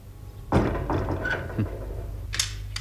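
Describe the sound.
A door being shut with a solid, dull thud, followed by a few softer knocks or clicks against a low background hum.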